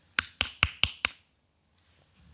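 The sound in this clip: Five crisp knocks on a door in quick, even succession, each rap fading fast, followed by near silence.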